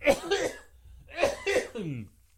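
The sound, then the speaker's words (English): Coughing in two short bursts separated by a brief pause, each made of a few throaty, rough expulsions at moderate loudness. “I think I'm going to cough.”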